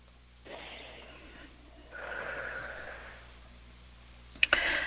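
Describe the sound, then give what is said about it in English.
A deep breath during a guided healing session: two long, soft, breathy swells of air, gentle and quiet, followed by a couple of brief sharp clicks at the end. “Take a nice deep breath.”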